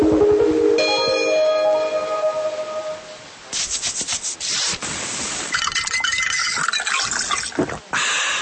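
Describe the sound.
Preparation of a Mr. T powdered fruit drink from a sachet: a bright ringing tone gives way to steady rubbing and pouring noise with gritty, liquid texture.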